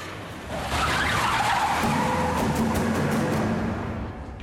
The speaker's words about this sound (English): He gets in the driver's seat and races off.